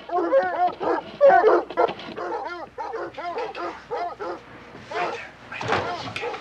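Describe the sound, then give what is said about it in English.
A pack of dogs barks and yips in many overlapping, rapid bursts, with some whimpering mixed in. The noise stays loud and busy throughout. “Ushers Sultan inside and shuts the door on the marauding pack of dogs.”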